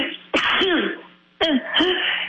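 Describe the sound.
A person sneezes twice, each a loud, abrupt, explosive burst of breath, separated by a short pause.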